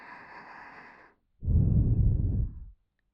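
Two long, breathy gasps: first a thinner, hissing breath, then after a short pause a louder, fuller rushing breath that stops abruptly.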